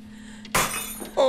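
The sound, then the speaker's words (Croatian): A drinking glass breaks with a sudden bright crash and scattering shards, followed moments later by a second sharp clink that leaves a short, high ringing tone. “Razbijena čaša, Margarita, donosi sreću.”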